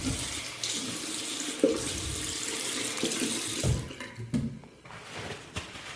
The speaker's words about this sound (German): Hände waschen.